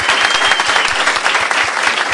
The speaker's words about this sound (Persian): مرسی مرسی. افتخارشون دست بزنین